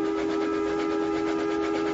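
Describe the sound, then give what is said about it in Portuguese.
An illuminated train sounds its whistle in one sustained tone that holds a steady pitch and an even loudness for the whole clip, with no voices. “E o apito de um terceiro trem iluminado soou.”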